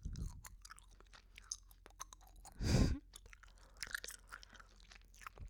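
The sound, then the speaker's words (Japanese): Gum is chewed loudly right next to the ear: many soft, wet, sticky smacks and clicks in an uneven rhythm, with one denser, louder crunching burst midway, and no voices. “あなたの耳の真横でガムをくちゃくちゃ食べてるところをちゃんと想像して。”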